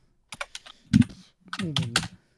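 Several quick clicking keystrokes as someone types a message on a computer keyboard, followed by a short stretch of voiced murmuring.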